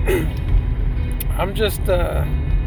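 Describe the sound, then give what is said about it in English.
Low engine rumble of a truck, heard from inside the cab while driving, forms a steady drone beneath a person talking. “I'm just in the truck, just driving.”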